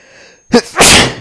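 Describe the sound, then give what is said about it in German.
A single human sneeze: a short catch of breath, then a loud, broad, explosive burst that trails off, heard alone with no talk. “Jetzt muss ich gleich niesen.”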